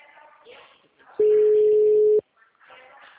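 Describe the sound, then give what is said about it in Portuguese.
Ringback tone of an outgoing telephone call: a single steady, flat, mid-pitched tone lasting about one second, loud and clean, with people talking before and after it. “Tô ligando.”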